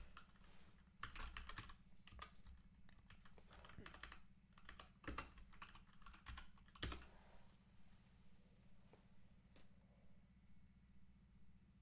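Typing on a computer keyboard as someone searches for quarterbacks: faint, irregular runs of quick key clicks, some louder than others, over a steady low hum.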